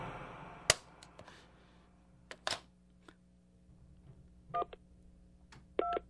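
Touch-tone keypad beeps as a telephone number is dialed, with sharp clicks of handling and button presses between a few short, clear tone pairs. Everything is faint and spaced irregularly, with no voices.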